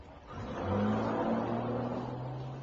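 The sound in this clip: A car drives past, its engine hum swelling over the first second, then holding a steady mid-pitched drone that eases slightly toward the end. No voices are heard.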